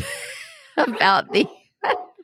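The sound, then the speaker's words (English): A big dog, an 85-pound puppy, barking and yelping in a few loud, sharp bursts separated by short pauses, sounding upset. “okay, that's my dog. If you can hear that, that's my puppy who's now 85 pounds. Oh, I love a big dog. He's upset about something.”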